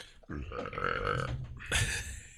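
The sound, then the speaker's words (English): A loud, drawn-out burp with a deep rumbling tone, quickly followed by a second shorter burp, heard on its own without talk. “You putting out that weak sauce, man. If you're gonna burp, fucking burp.”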